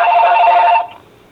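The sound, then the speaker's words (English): A telephone rings during a meeting, a single loud electronic trill lasting under a second before cutting off to near silence. “I'm having a hard time hearing. Yeah. With the phone ringing.”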